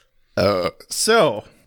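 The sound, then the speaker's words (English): Two loud, pitched burps in quick succession, each deep and resonant with a throaty, voice-like tone, the second slightly longer than the first, with no other sound around them. “I can't stop burping today.”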